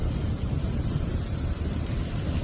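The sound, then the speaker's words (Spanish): Loud, steady roar of a Spanish A400 military airplane taking off from Zaragoza: a dense, low engine rumble that holds without a break from start to end. “Y de esta forma sonaba ese avión militar A400 que anoche despegó desde Zaragoza rumbo a Dubái.”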